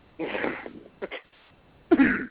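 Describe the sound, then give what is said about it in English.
Three rough throat-clearing bursts: a longer harsh rasp, a short double catch, then a final burst that is the loudest, separated by brief silences. “Excuse me while I clear my throat”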